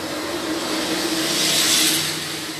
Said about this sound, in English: the perfect moment for a truck to pass.